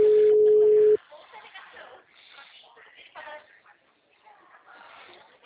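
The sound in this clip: Ringback tone of an outgoing telephone call: one steady, mid-pitched tone lasting about a second, then cutting off as voices begin talking over a narrow, phone-like line.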